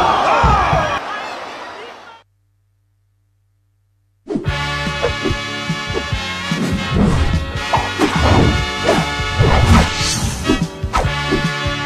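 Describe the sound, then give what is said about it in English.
A heavy wrestling slam as a wrestler lands a shooting star press: loud crashing impact noise with crowd sound, broken by a sudden silent gap of about two seconds before the din returns at full strength. “He's standing up. Keep it up top. Shooting star press.”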